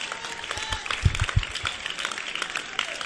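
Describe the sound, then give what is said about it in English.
Faint, scattered clapping from one section of a seated audience during a sermon, light and uneven claps rather than full applause. “Only this section here are clapping.”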